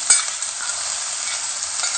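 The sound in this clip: Thick-sliced champignon mushrooms frying in a pan give a steady, bright sizzling hiss that stays fairly even throughout, with a slightly louder crackle at the start.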